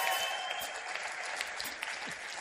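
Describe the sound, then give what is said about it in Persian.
An audience claps in honor of a doctor, a dense and steady wash of applause with no clear pauses. “به افتخار دکتر هولاکوی نازنین دست خیلی قشنگ بزنید.”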